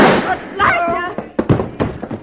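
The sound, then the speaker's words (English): Gunshots ring out in a radio drama confrontation in which a husband is shot dead: sharp, loud bangs break in among tense, overlapping voices. “Did he do the shooting, Mrs. Parker? He killed my husband.”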